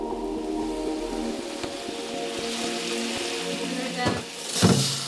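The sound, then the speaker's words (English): A pan sizzling as it is deglazed with whiskey while making a whiskey sauce with leftover haggis ends, a steady crackling hiss with a brief louder flare near the end. “so we deglaze the pan a little bit with whiskey”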